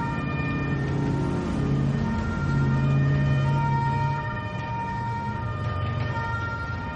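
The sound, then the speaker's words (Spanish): Ambulance sirens sound as ambulances and military trucks arrive at a hospital, with steady, sustained wailing tones held over a low, constant rumble. “Observa las ambulancias y camiones militares que llegan al hospital.”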